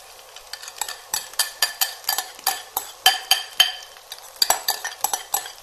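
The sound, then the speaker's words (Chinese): A spatula scrapes and clanks in a pan as egg and rice are stir-fried, with many quick, rhythmic strokes, some louder than others, over a faint background. “现在就把这个鸡蛋倒下去，然后呢再把这个饭也可以倒进去”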